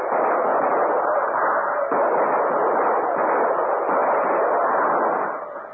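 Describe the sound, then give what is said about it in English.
Rapid rifle fire from a fort during a battle against Comanches, as a radio drama effect. Overlapping shots blur into a dense, continuous, crackling roar that stays loud, then fades at the end. “Tell the men to start firing now. Those new rifles will do the trick. They have targets to shoot at. Fire at will!”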